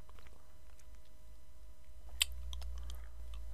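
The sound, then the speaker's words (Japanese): Someone chewing ice, quiet crunching and soft bites with one sharp, loud crunch partway through followed by a few smaller crackles. “おいしい。久しぶりに氷食べた。”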